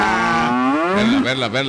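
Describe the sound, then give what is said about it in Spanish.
A cow from Angostura moos in one long, loud, continuous call, its pitch rising and then wavering toward the end. “Me gustó el nombre de esa vaca de Angostura.”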